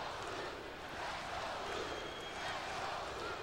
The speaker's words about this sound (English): the crowd are chanting something, I'm not entirely sure